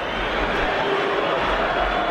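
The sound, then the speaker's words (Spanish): Stadium crowd noise at the end of a Celta football match, with scattered applause from the Celta supporters. It is a steady, broad roar of many people at a constant loudness, with no distinct individual voices. “Hay algunos pitos, estos aplausos que son los del Celta, pero más indiferencia.”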